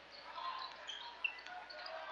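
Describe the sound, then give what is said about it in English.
A basketball dribbled on the court during a boys' basketball game: faint bounces, including one sharper thud, under a steady wash of crowd noise. “Dribbling across half court”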